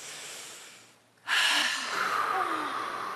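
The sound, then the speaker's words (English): A deep breath: a soft airy breath fades into a moment of quiet, then a loud, long, rushing breath is drawn and slowly tapers over the last two seconds. “So first of all, I want you to take a really big, deep breath. Just take a deep breath.”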